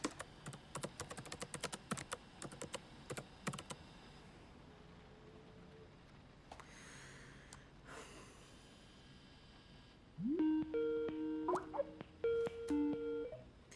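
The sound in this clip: Rapid, uneven keystrokes on a computer keyboard as a woman types a message, with dense clicking in the first few seconds that thins out, followed later by a run of electronic beeping tones.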